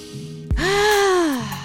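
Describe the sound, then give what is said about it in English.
A deep breath during a breathing exercise: a sharp, quick intake, then a loud, long voiced sigh on a steady tone that tapers and falls away at the end. “And now let's just breathe.”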